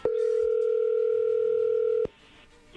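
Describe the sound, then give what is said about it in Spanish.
Ringing tone on a telephone line while a call is placed: one steady, buzzing tone of about two seconds, then quiet line noise. “A ver, vamos a marcarle, Héctor, a tu esposa Yolanda y a ver qué sucede.”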